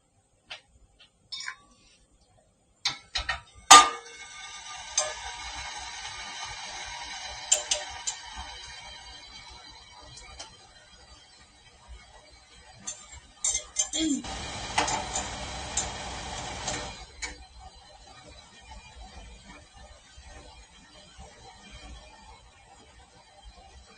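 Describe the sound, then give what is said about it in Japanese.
Hot water is poured into a dedicated coffee bottle as a long, faint, steady splashing stream. A few sharp clicks and clinks from the bottle are mixed in, and the pour then stops, leaving quiet. “今、カフア、えー、コーヒー専用ボトルカフアに、えー、お湯を入れていきますね。”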